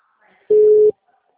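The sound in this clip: A telephone call tone from a mobile phone: one steady mid-pitched beep of under half a second sounds alone between near silence.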